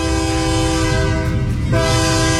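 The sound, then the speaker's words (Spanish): A train horn sounds in one loud, steady, sustained blast over the low rumble of the train, with a brief dip in the tone before it continues. “Deja que suene el tren”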